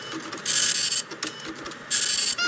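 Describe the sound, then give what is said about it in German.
A printer runs off flyers in a pizzeria simulator video game, giving two loud whirring bursts with a bright, high whine, separated by a quieter stretch of mechanical rattling. “Ach so, wir müssen Sachen, Flyer drucken.”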